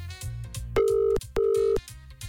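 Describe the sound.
Ringing tone of an outgoing telephone call: two short, loud, mid-pitched beeps in quick succession over a continuous backing music bed.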